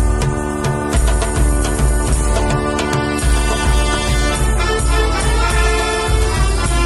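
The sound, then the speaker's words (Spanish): A brass and wind fanfare band from Elda, part of a Moors and Christians festival troupe, plays march music. It is loud and steady, with sustained horn chords over a pounding low drum beat. “Esto es la música que interpreta la fanfarria cíngara de Elda, que yo formo parte. Es una agrupación musical de una comparsa de moros y cristianos.”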